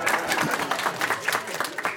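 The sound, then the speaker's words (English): People clapping in imitation of Nancy Pelosi's applause, a dense flurry of many quick claps blending into a continuous, busy patter at steady loudness. “We can all do her applause right now because we've all seen it.”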